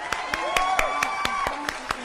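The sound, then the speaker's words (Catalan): Audience clapping to welcome a film director, about nine sharp, evenly spaced claps in a steady beat over a sustained tonal background with voices. “Tenim aquí a Chloe Zhao, sisplau, benvinguda. Un aplaudiment.”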